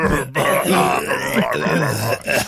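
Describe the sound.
Someone clears their throat with a rough, gravelly rumble lasting about two seconds, broken by brief pauses.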